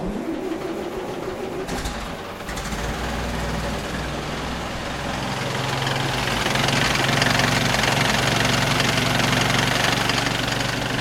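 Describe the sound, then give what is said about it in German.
An old car engine runs in an exhibition room after the fuel tap is opened and the ignition set with a steering-wheel switch. It makes a steady, low, rumbling idle that grows noticeably louder partway through and then holds. “Jetzt haben wir gerade den Benzinhahn aufgemacht. Die Zündung stellen wir auf vor. Das ist am Lenkrad also extra ein Schalter. Jetzt probieren wir es gerade nochmal, ob er läuft.”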